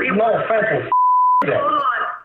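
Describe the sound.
A single steady, clean beep holds one pitch for about half a second, cutting in sharply between two stretches of speech; it is a plain beep, not a call-waiting tone.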